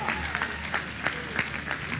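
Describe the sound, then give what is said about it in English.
A church audience gives a clap offering to the Lord, clapping in a steady, even rhythm of sharp beats under voices. “Give the Lord a clap offering.”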